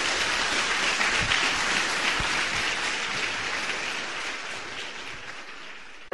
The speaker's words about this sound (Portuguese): Vamos aplaudir o nosso Senhor bem forte.